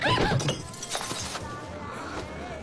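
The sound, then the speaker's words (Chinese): A container of bird's nest is knocked over with a sharp crash and clatter at the start, followed by fainter scattered clinks and knocks. “我说这位中国小姑娘怎么这么不小心啊，你撞翻了我的燕窝啊。”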